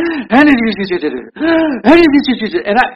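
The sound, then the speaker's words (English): A voice imitates a preacher breathing heavily while talking, with rough, voiced gasping huffs that rise and fall in pitch. They come in two runs separated by a brief pause. “And the ones that breathe a lot, you know, that breathe really heavy, that talk through, they go,”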